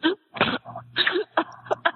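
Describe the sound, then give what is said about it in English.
Someone coughs and chokes on a sip of soda: a series of harsh, sputtering bursts in an uneven rhythm, some strong and some clipped, over a low steady hum. “I'm drinking out of my soda. Okay. Now you're choking on your soda.”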